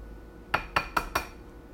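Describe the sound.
An egg being tapped against a bowl to crack it: four quick, sharp clinks at an even rhythm, fairly faint over a quiet background.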